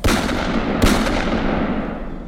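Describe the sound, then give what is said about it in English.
Gunfire in a film scene, where a woman shoots a man several times in the dark, aiming by his voice: a sharp, loud bang stands out from a dense, continuous roar of noise. “by using the sound of his voice for her aim, she shoots him multiple times”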